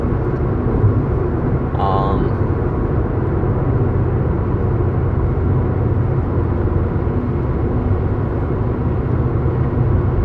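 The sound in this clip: Steady road roar from a car travelling on Interstate 40: a continuous low engine and tyre drone that stays at constant loudness throughout.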